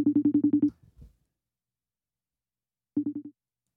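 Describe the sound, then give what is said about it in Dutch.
Telephone tones on a redial after a dropped call: a quick run of short, even, mid-pitched beeps, a brief low rustle, a long silence, then a shorter run of identical beeps. “De verbinding is verbroken. Ik heb niet heel veel geluk met verbinding. Ik ga Ipo opnieuw bellen.”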